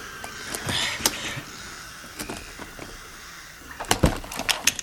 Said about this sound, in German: Warte, versuche es mit diesem Schlüssel hier. Der war in der Harlequin-Marionette. Ich werde die Kiste öffnen. Gib mir den Schlüssel.